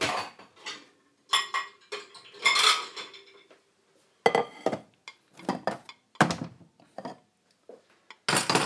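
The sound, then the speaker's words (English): Plates and cutlery clink and clatter while pasta is dished up: many sharp ceramic and metal knocks in irregular clusters, with short pauses between bursts. “I think I'm just going to dish up now. So yeah, let's get some plates.”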